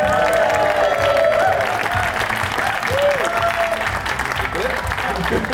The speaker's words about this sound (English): Please raise the roof for Philip Hammond!